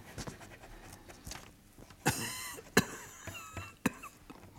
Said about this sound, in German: Du hustest die letzten Tage.